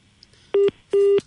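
Phone line tones after a call is cut off. Two loud, short, mid-pitched beeps sound with a brief gap between them, the second slightly longer, over a faint quiet background.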